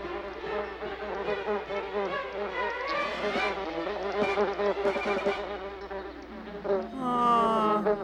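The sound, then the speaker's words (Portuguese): A bee buzzes loudly and continuously in a dubbed film scene, a droning, wavering buzz that fills the whole clip with a rich, harmonic tone and no talk over it. “Ah, uma abelha! Abaixa!”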